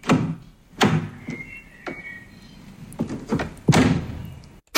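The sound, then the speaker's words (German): A car door is opened and shut, giving a few dull thunks and clunks with softer rustling between them. A final sharp knock comes at the very end. “Richtig, eine Autotür.”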